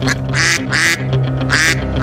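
Ducks quack in a rapid, irregular series of several loud, nasal quacks over a steady low hum.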